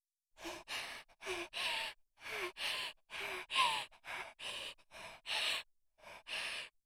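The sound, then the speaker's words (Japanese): A female voice acts out a video game character, Luna, panting hard to catch her breath. Many quick, breathy, voiced gasps come in a steady, urgent rhythm with only short pauses between them. “このチャンスに必死で呼吸を整えるルナちゃん。まるでウサギのような小動物が精一杯生き延びようとしている感じで可愛いです。”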